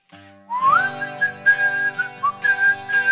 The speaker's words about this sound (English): This is a sound check for the whistling song.